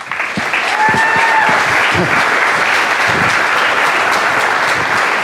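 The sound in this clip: Dense applause from an audience welcoming the winner of the 2012 Zócalo Book Prize stays at an even, loud level throughout, with a faint voice briefly beneath it.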